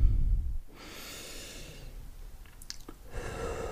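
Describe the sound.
A deep breath taken during a guided relaxation exercise: a long, soft, airy rush of breath noise lasting a few seconds, heard alone with no talk.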